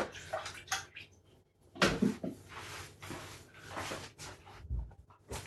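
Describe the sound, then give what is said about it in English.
Hands are washed under running water while a quiche is being made, a faint, uneven splashing and rushing with a few louder surges. “And then I'm going to give my hands a quick wash and then I can get it off for you.”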